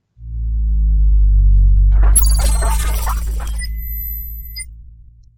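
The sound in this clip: A radio show's theme jingle opens on a loud, deep synth drone. Midway, a short burst of bright, noisy, sparkling tones and a few high sustained notes comes in, then the drone slowly fades out.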